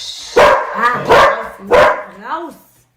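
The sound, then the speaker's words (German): A dog barking, a few sharp, loud, harmonic barks at a steady spacing, the last one softer and falling in pitch, with quiet gaps between. “Das ist mein Hund.”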